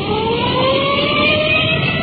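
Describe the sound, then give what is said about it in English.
A police car siren wails as the car rolls code 3 to a call, its tones climbing slowly in a continuous, loud howl over a low engine rumble. “We've put in our siren, rolling code 3.”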